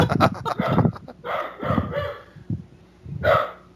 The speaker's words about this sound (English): Now you hear. Dog is not happy.